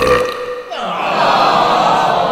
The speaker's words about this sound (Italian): usando la Coca-Cola contro i nostri giocatori, ruttando in maniera continua e costante, creando delle vibrazioni